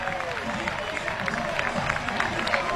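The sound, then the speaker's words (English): A baseball crowd reacts to a two-out payoff pitch in the top of the fifth, Oregon batting against Washington State. Steady, dense crowd noise with many overlapping voices and scattered cheers runs throughout at an even level. “Crowd comes alive for this payoff pitch.”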